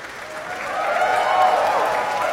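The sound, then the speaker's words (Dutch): An audience applauds members of a youth orchestra, players aged 14 to 20, who stand to take a bow after a symphony performance. The clapping is dense and steady and swells slightly toward the middle. “wat je nu hoort is Jurjen Hempel die verschillende orkestleden aanwijst om even te gaan staan en het applaus in ontvangst te nemen.”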